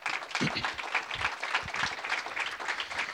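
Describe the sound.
Audience applause welcomes a speaker to the stage: dense, continuous clapping from a crowd that stays at an even level for the whole clip, with a few low thumps mixed in.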